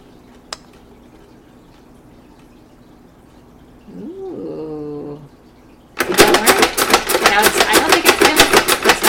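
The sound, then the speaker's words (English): A spin art machine's motor: a brief rising whine, then a loud, rapid, evenly pulsing whir that stays steady to the end. No slowing down is evident. “That was a good fast spin. Don't stop it. Don't stop it. No, no, no, no. It'll slow down. It'll slow down.”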